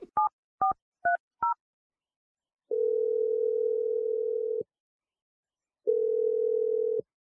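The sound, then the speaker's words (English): A telephone dialing a number: five short touch-tone beeps in quick succession, then two long, steady ringing tones separated by a pause, with nothing else heard around them. “So we're going to dial your boyfriend's number”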